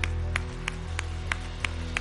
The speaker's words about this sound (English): in the name of Jesus, let's clap our hands to God today.